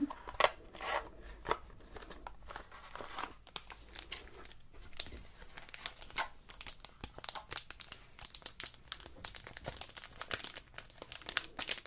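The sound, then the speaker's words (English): Crinkling and tearing of packaging as a Biore charcoal pore strip is handled and prepared during a barbershop skincare session, with many quiet, close rustles and crisp snaps. “So I'm just going to now apply the pore strip. This is a Biore charcoal.”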